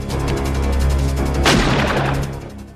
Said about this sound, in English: Frank drives up, shooting a pistol at the gunman. He gets out of his Spider and crouches by the wing for cover. He manages to take out the guy with the shotgun.